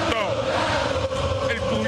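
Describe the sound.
Crowd noise from the stands during a Boca football match, a dense mass of chanting and shouting voices that blend together at a steady level for the whole two seconds.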